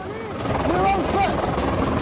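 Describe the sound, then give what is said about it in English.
A helicopter descending through airspace closed by the Secret Service, a steady rotor and engine roar that holds loud and unbroken for about two seconds. “As the chopper descends, Bear explains”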